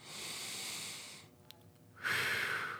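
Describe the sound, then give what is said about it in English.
Deep diaphragmatic breathing in a demonstration of slow inhaling and exhaling: one long airy breath, a brief near-silent pause, then a second, louder and brighter breath. “Your concentration is from your diaphragm. So as you watch me, inhale and exhale.”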